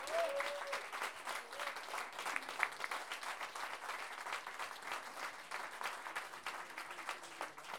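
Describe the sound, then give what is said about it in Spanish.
Audience applause at a folk improvised-verse singing tournament, a dense, steady clapping that continues evenly for several seconds. “Por eso les pido, por favor, un grandísimo aplauso para ellos.”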